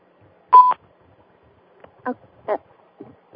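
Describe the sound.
A single short, clear electronic beep on a phone line signals an incoming caller. Quieter, broken sound fragments follow it.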